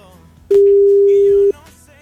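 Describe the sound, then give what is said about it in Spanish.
A single loud, steady telephone tone lasting about one second sounds while a call is placed, with faint voices in the background. “Vamos a ver si contesta Carmen”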